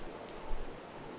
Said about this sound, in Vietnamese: Ông Thảo đứng lùi vào trong vì cơn mưa hắt mạnh